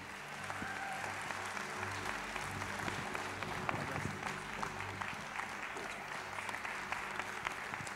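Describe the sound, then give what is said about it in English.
An audience at a ministry gathering applauds to welcome a guest speaker, with steady, dense clapping that holds at an even level from start to finish. “Would you please give your best welcome for our friend Casey Keegan?”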